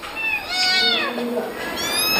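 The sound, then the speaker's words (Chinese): A kitten meows repeatedly while being fed goat milk: a run of high, wavering cries that rise and fall in pitch, fairly loud and continuous, with no pauses between them. “喂羊奶，喵喵，别急，马上就好了。”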